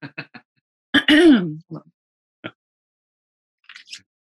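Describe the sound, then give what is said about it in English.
A person coughs and clears their throat: a few short throat sounds, one longer rasping clear, then scattered brief coughs with silent gaps between them. “I'm going to cough more.”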